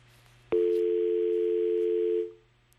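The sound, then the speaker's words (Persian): Telephone dial tone after a call disconnects: a click, then one steady, loud, unbroken mid-pitched tone that holds for nearly two seconds before cutting off, with no voices. “فکر کنم تماس ما با شنونده ما قطع شد”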